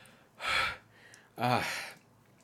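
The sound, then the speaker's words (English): A voice imitates a wounded person wheezing: two strained, breathy gasps separated by a short pause, the second one longer, voiced and rasping. “I think he's wheezing, and he's just like,”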